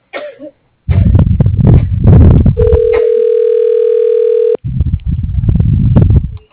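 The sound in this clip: A steady telephone line tone sounds while a call is transferred to voicemail. It is one unbroken, level tone held for about two seconds, between stretches of other sound before and after it.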